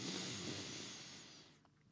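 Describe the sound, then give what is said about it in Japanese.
A deep breath drawn in through the nose during a voice-training exercise in abdominal breathing: one long, faint hissing inhale that holds steady, then fades toward the end. “はい吸ってください鼻から。”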